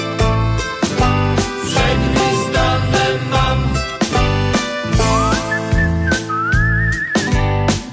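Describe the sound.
A person whistles a tune, the clear, high, wavering melody rising and gliding over a full band with a steady, punchy beat and sustained chords.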